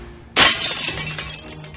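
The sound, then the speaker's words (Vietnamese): A tempered glass door shatters in one sudden, loud burst, followed by a lingering crackle and tinkle of small rounded fragments falling and settling. “cánh cửa kính cường lực nổ bùm một tiếng như bom. Tất cả đổ sập xuống, từng viên kính cường lực tròn như hạt ngô rơi lạ tả.”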